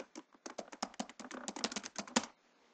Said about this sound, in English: So I'm going to go ahead and call get Azure publish settings file, and this will kick me out to a web browser where I can type in a user account.